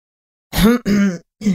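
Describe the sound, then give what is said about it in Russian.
A man's cough, voiced and throaty like a throat clearing, comes as three short bursts close together, the last after a brief pause, with no other sound around it. “Лишь кашлянул в ответ мужчина.”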